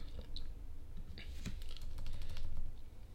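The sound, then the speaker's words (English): Rapid keystrokes on a computer keyboard, with clicking, while running an online image search: many light, irregular taps at a fairly quiet, steady level, with no talk. “I'm just gonna type in images and then click on images.”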